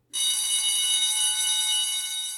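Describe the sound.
Electric school bell ringing to mark the end of lunch: one steady, unbroken metallic ring that starts abruptly and holds at an even, bright pitch for about two seconds.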